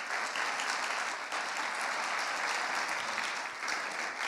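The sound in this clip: Applause from a church audience welcoming guest speakers, a dense, continuous wash of clapping that stays at a steady level throughout.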